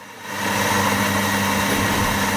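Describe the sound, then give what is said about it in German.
A cappuccino is being prepared in a café in Hackney. After a quieter moment, a coffee machine hums loudly and steadily with a broad hiss, holding one even tone throughout. “Hier wird gerade ein Cappuccino zubereitet.”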